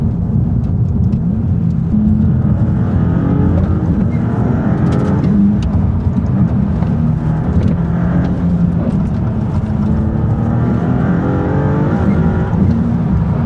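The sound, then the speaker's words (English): A sports car's engine and exhaust roar without pause, a loud, deep, rumbling drone whose revs swell and ease a few times, with no talking over it. “Just let me enjoy sound of the engine and exhaust.”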